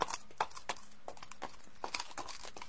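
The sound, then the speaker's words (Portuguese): A horse stamps its hooves on the ground, making a few faint, irregular thuds with soft, hollow knocks and no voices. “E ele, como se me agradecesse, bateu as patas no chão e relinchou”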